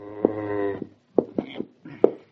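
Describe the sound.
A cow moos as it is coaxed through a doorway into an unfamiliar building: one long, low, tonal moo, then a few shorter, rougher calls with brief gaps between them, all fairly soft.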